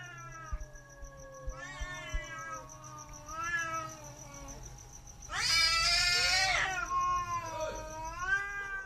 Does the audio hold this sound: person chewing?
no

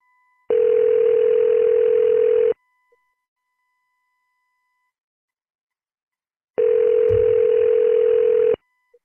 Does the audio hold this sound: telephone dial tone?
yes

